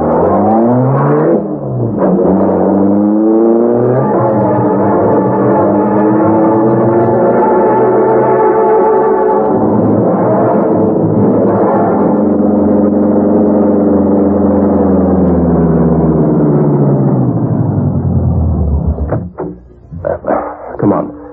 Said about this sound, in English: Step on it. Drive to the Big Trust apartment.